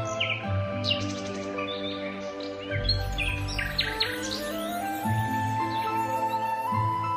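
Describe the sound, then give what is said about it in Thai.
Various birds call over a ripe, golden rice field at harvest time, with dense overlapping chirps, tweets and whistled notes forming a continuous, busy chorus. “ช่วงเวลานี้ นกกานานาชนิดก็จะมาเยือนผืนนาเหมือนแม่บ้านจับจ่ายตลาด”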